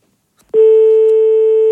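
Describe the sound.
Telephone busy tone after the caller hangs up: a faint click, then a loud, steady, unbroken electronic tone at one fixed pitch that runs to the end.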